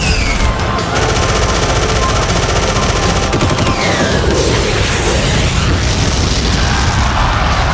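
Rapid machine-gun fire and heavy booms as an aircraft is shot down in a dogfight, a loud, unbroken roar of bursts and blasts throughout.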